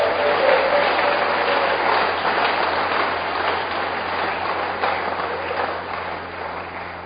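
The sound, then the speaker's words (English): A church audience claps hands loudly and continuously, a dense, even wash of applause that eases slightly toward the end. “Give the Lord a wonderful clap of hands.”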